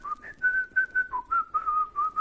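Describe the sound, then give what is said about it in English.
A person whistles a slow hymn tune in a coffee shop: a string of short, clear notes held at a fairly steady mid-high pitch with brief dips, whistled alone without talking. “One morning I just stood up and I started to whistle.”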